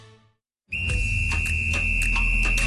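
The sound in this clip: A referee's whistle, blown as if for a yellow card: after a brief silence, one long, loud, shrill, steady blast holds to the end.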